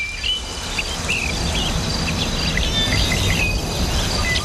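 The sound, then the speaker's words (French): Steady insect and cricket chirring fills the outdoor nature scene, with a few faint bird chirps scattered above a constant low rumble. “Le son, moi, qui me fait du bien tout le temps, et c'est un grand classique, je pense, c'est le son de la nature.”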